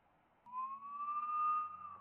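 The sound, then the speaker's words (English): Sirens from two Border Patrol Jeep Wagoneers sound as one faint, sustained wail that climbs slowly in pitch and eases slightly near the end, over a low rumble. “There's two Wagoneers, and they've got their sirens on, and they're Border Patrol.”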